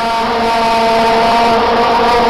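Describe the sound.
A plastic toy noisemaker being blown into gives a loud, continuous, buzzy drone that holds a steady pitch with rich, harsh overtones and no break.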